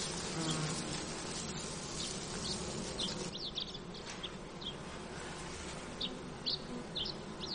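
Honeybees buzzing around hives in a sunny forest clearing, a steady, faint, continuous hum with scattered high bird chirps over it.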